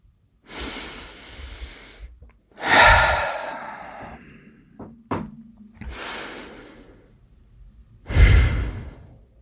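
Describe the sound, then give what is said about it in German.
Deep breaths in and out during a guided relaxation exercise with eyes closed: a series of long, breathy whooshes of rising and fading air, separated by short pauses. No talking. “Jetzt, wenn du die Augen geschlossen hast, atme ein, zweimal tief ein und aus.”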